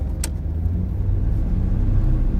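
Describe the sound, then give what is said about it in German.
Car driving into a residential neighborhood on a hill, a steady, even low engine and road rumble that holds at the same level throughout, with no voices. “Wir fahren in eine Wohnsiedlung auf einem Hügel.”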